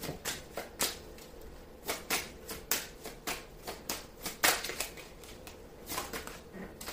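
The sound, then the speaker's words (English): Cards from a clarification deck being shuffled and drawn, a steady rhythm of many soft riffling flicks, fairly faint and with no talk. “Let me take a card right quick from this clarification deck.”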